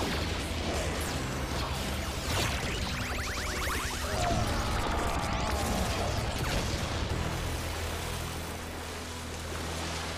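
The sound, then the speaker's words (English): An Electro Fury Blade Blast attack effect from a video game: a dense, sustained roar of crashing, whooshing noise that fills about ten seconds and eases slightly near the end. “Haha, Blade Blaster. Haven't had one of those for a while. Ooh, that's a nice effect. Electro Fury, Blade Blast!”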